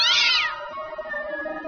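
A cat meows once, a loud drawn-out cry whose pitch falls, then it trails off into a quieter lingering tail.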